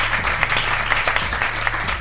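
Audience applause at a live recorded event, a dense, even wash of clapping lasting about two seconds over a faint low hum.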